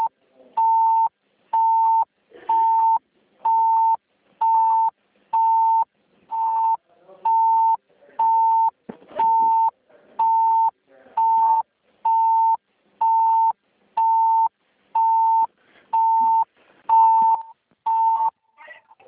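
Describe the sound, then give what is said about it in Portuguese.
A phone line beeps after a dropped call. A steady mid-pitched tone repeats in short, evenly spaced pulses about once per second for the whole stretch, each beep uniform in loudness. “Alô? Alô? Caiu a ligação.”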